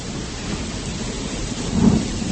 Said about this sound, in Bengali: এইটা থেকে শুরু হলো বৃষ্টি শুরু হলো